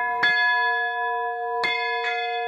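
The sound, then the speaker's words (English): An old church bell cast in 1836, the oldest in Kalamazoo, strikes three times. Each stroke blooms into bright, sustained ringing tones that hang between the strikes. “That's the sound of the oldest church bell in Kalamazoo. It was made in 1836 and brought here by oxcart”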